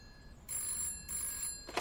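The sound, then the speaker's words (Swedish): A telephone rings in a bookshop in Gothenburg in 1973. It gives two quiet bursts of bell ringing with a short gap between them. “i Göteborg när telefonen ringer”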